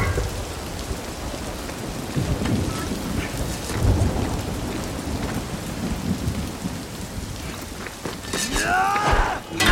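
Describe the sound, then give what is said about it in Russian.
Steady rain pours on an overcast day over a warriors' training ground in the city of Jing, a dense hiss with low rumbles of thunder rolling beneath it. “Пасмурный день. Льет дождь.”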